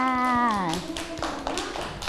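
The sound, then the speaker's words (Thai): Children clapping their hands in a classroom. A woman's voice speaks at the start, then a series of sharp, fairly rhythmic claps follows. “ปรบมือให้น้องไม้ด้วยค่ะ”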